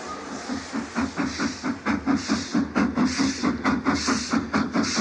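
Rhythmic chuffing of a train, regular bursts of steamy hiss repeating at an even pace over a low, continuous rumble, loud and steady throughout.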